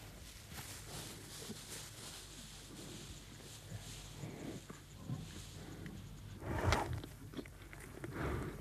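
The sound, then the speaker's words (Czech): Lions slowly feeding on a large wildebeest carcass: faint, irregular biting, chewing and crunching, with scattered soft tearing sounds and a somewhat louder crunch near the end. “Teď má pakoně on. Leží tu mohutný, skoro jako kráva. Lvi žerou pomalu.”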